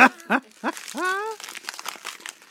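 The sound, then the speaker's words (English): Plastic packaging crinkled by hand: a brief voice first, then a run of dry, irregular crackles and rustles that continue to the end. “Crinkle, crinkle, little star. That made more noise than I expected it to.”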